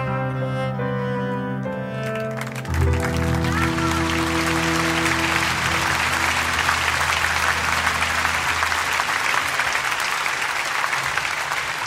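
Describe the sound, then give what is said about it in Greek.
Audience applause after a sung song: the last held musical notes ring briefly, then dense, steady clapping takes over and continues loud and even to the end. “Τα χειροκροτήματα που μόλις ακούσατε δεν ήταν για μας, έτσι.”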